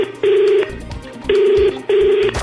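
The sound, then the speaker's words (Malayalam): Ringback tone of an outgoing phone call, three steady mid-pitched buzzing bursts, the last two close together as a paired ring, with quieter low sounds between them. “So number തന്നതിന് പ്രകാരം ഞാൻ നമ്പറിലേക്ക് വിളിച്ചു.”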